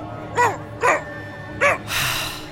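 A dog barks three times in an even rhythm, short sharp loud yaps, followed by a longer burst of hissing noise.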